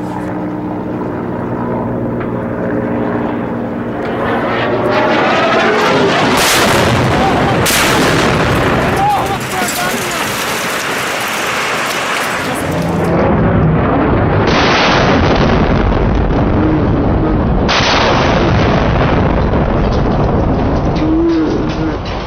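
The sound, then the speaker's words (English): Strange explosions in Paris: a dense, loud stretch of rumbling blasts and booms that merge into continuous roaring noise, with sharper bursts rising out of it. “Panic in Paris tonight. As inexplicable strange explosions.”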